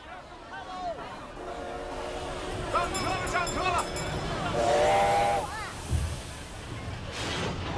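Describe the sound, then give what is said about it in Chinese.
Departing train heading north, with a continuous hissing steam rumble and whistle-like tones rising out of it, while voices speak over the noise. “北上的列车已经开动了”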